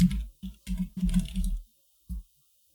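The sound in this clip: Keyboard typing while writing notes: several short bursts of quick key clatter separated by pauses, ending with one isolated brief burst.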